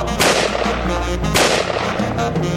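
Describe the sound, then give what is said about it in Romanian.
Gunfire aimed at a ruler cracks out amid a street crowd jeering him. Two loud, sharp blasts land about a second apart, each trailing off into a rumbling, noisy wash. “Au tras în domnitor!”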